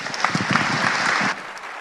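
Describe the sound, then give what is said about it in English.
A church audience applauds to welcome a speaker: dense, brisk clapping that holds strong, then thins to a softer patter toward the end. “So would you give a warm Shelby Christian Church welcome to Darrell Land?”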